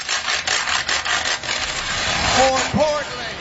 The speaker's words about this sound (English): busted out a pair of wooden spoons and a washboard and started scraping away